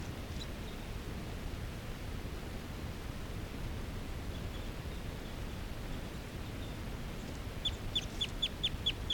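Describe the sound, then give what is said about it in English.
A male bird gives fighting calls, a quick run of short, sharp, high chirps near the end, faint over a steady hiss, with a few isolated chirps earlier. “The fighting calls just happened. This is a call of a male who's right next to bird 378.”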